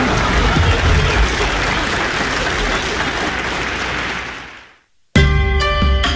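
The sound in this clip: Audience applause during a comic Beijing storytelling routine: a thick wash of clapping that holds steady, then fades to near silence, and music starts abruptly in its place.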